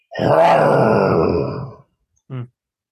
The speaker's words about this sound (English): besides having a car go vroom, vroom, vroom, to put a lion in there and have the car go,